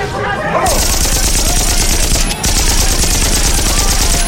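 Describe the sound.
Dense rifle volleys and machine-gun fire roar without a break during a Mexican Revolution battle near a hacienda. The loud, crackling barrage pauses only briefly midway.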